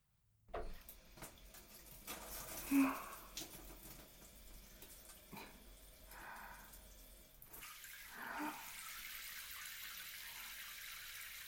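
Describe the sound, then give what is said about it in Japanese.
Running water wetting hair during a hair wash makes a faint, steady hiss, with a few brief knocks and splashes near the start. “ゆっくり髪を濡らしていきますので、お湯が熱かったりした時には教えてくださいね。”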